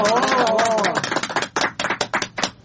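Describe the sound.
Audience clapping to welcome a poet onto the stage at a poetry gathering, as a voice gives way to a run of distinct, uneven claps.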